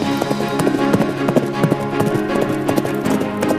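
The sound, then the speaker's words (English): Rapid, steady hoofbeats of a white horse galloping at top speed, a continuous run of sharp, loud beats lasting throughout, set against a sustained tonal background. “The horse was galloping at top speed.”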